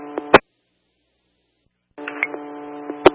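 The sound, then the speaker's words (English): A telephone ringback tone sounds on a landline call: two stretches of a steady, buzzing tone with light clicks, separated by about one and a half seconds of silence. “I'm landline now, still getting a ringtone.”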